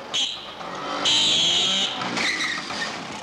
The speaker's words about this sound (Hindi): ये उसी के स्कूटर की आवाज है।